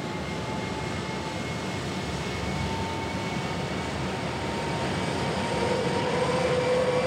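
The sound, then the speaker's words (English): Airplane engines running as they are started one after another, heard as a dense, steady drone with faint humming tones; the level rises noticeably near the end as another engine comes in. “they can hear the plane motors as they are each one fired in order. The first two are already running. Now three.”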